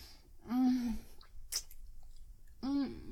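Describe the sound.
Wet, squishy chewing of gum, paired with two short hummed vocal sounds, one early and one near the end, separated by a quieter stretch of mouth noise.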